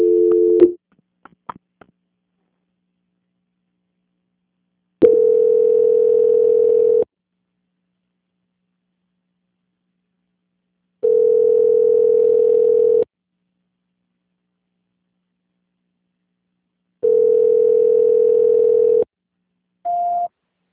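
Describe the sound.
Telephone ringback tones heard during a call transfer: a brief tone and a few clicks, then three long, steady tones of about two seconds each, evenly spaced by long silences, and finally a short, higher beep.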